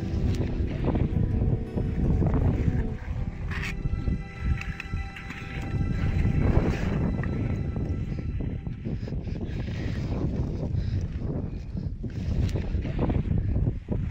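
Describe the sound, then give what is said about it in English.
Wind blows at the summit of Mount Everest in a continuous, loud roaring rush, with buffeting gusts hitting the microphone and a low, rumbling texture that never lets up. No voices are heard. “That sound that you hear probably doesn't sound like much, but it's the sound of the wind blowing from the top of Mount Everest”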